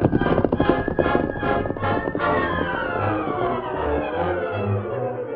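Hoofbeats of the Lone Ranger's horse Silver riding off: brisk, rhythmic clopping fills the opening seconds, then gives way to a sustained tonal swell that carries to the end.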